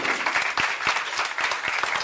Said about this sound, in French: on peut l'applaudir